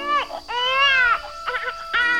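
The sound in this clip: An abandoned baby crying in a basket in front of a wolf den in the jungle: a few high, wailing cries in separate bursts with short gaps between them.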